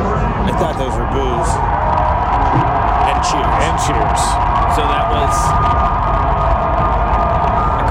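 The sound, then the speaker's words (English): Stadium crowd noise during player announcements, with the fans reacting to Deshaun Watson and Nick Chubb being introduced: a dense, continuous roar that stays loud and steady throughout, with no clear breaks. “They announced Deshaun Watson. You hear all the boos. Right after that, they announced Nick Chubb. You hear the roarest cheers.”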